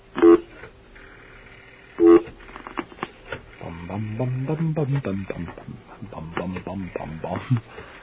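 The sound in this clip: Two short touch-tone telephone dialing beeps sound for a long-distance call, spaced a couple of seconds apart, followed by a person talking.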